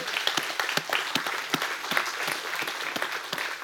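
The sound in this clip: A church audience applauds, dense and steady clapping with sharp individual claps standing out, holding at an even loudness throughout without any voices.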